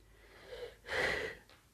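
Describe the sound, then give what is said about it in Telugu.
A woman takes a deep breath: a faint short intake, then a louder, longer, airy inhale lasting about half a second, alone and quiet. “గాఢంగా శ్వాస తీసుకుంది వసంత”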